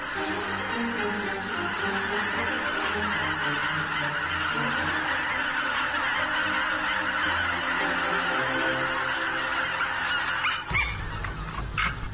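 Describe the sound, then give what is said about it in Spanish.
A dense flock of geese honks in a continuous, loud chorus of overlapping calls during winter in Poland, where such flocks can reach tens of thousands of birds. The clamor stays steady throughout, with a brief shift near the end. “En su máximo apogeo, las bandadas de gansos llegan a los 60.000 individuos.”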